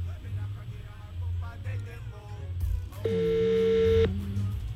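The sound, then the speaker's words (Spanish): An outgoing telephone call's ringback tone: a single steady, buzzing tone lasting about a second, louder than the quiet, murmuring sounds before it. “Vamos a llamar a Saray, ¿verdad? Sí. Vamos a ver si contesta, porque hay gente que no contesta números extraños.”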